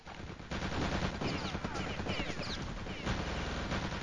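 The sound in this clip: Rapid automatic gunfire from MP40 submachine guns during a World War II video game match, loud overlapping bursts that swell after a quieter first half second and continue densely to the end.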